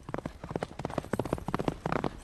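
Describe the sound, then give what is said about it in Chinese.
Hooves of a galloping war horse clatter in a fast, uneven stream of many sharp knocks, fairly faint throughout, with no voices. “赵云的战马已经从张飞的身边飞过了。”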